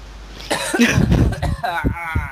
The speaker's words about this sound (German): Wenn er jetzt anfängt zu husten, dann hat er eine verschluckt.